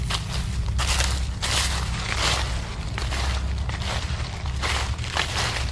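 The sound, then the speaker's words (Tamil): Crunching footsteps of someone walking up from behind toward a person outside a house by a tree, a steady run of many gritty steps over continuous rough background noise. “அவனுக்கு பின்னாடி இருந்து யாரோ நடந்து பக்கத்தில் வர்ற மாதிரியான சத்தம் ஒன்று கேட்குது.”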